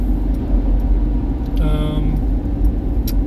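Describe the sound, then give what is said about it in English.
Steady low engine and road rumble from a car being driven, continuous and even in loudness throughout with no clear breaks. “just nothing really else going on, just driving.”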